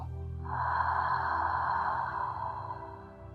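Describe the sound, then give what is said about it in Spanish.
A deep breath in and out during a guided breathing exercise: a soft, airy rush that swells in and then slowly fades over a few seconds, with faint low tones underneath. “Una vez más, inhala llenando tus pulmones de aire. Y exhala toda tensión acumulada en tu cuerpo.”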